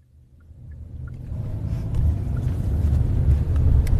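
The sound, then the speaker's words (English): Steady low rumble of a car driving out toward a tech hub in South Korea, the engine and road noise building gradually in loudness and then holding a broad, even drone. “We're driving out now to what you would call the Silicon Valley of South Korea.”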